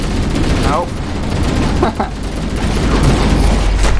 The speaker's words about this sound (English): Wow. Did you survive that explosion?